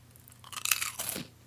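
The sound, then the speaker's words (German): Crunchy Pom-Bär potato snacks being bitten and chewed, a brief run of crisp, dry crunches that rise in loudness and then fade within about a second. “Ein schöner Pombeer, den ich hier gerade mal esse.”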